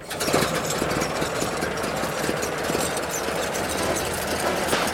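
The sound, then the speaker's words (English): An engine running after oil was dripped on its gears, the fuses checked and the hood closed; a steady, loud mechanical rumble with dense rattling and knocking, continuous throughout with no talking. “I've dripped oil on the gears, checked the fuses, and closed the hood. Here it goes.”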